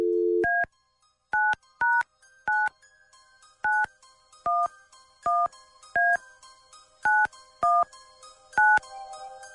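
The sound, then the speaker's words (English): A telephone is dialed: a brief dial tone cuts off, then a long series of separate keypad beeps follows at uneven intervals. Each beep is short, clear and fairly loud, with faint low hum in the gaps. “Here we go. Dialing at random.”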